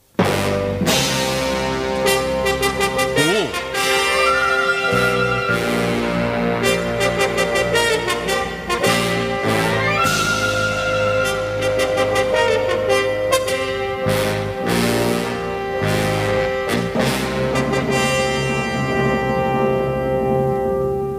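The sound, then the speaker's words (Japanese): A slower-tempo alternate take of background music for a TV program promo plays as sustained, steady instrumental tones and chords, with a couple of brief breaks. “今聞いていただいたのは番宣用音楽カッコスローっていうやつで、5秒ぐらい長いんですが、その分そのね、確かにテンポはややスローにしてますね。”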